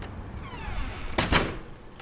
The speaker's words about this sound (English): You can come in and close the door.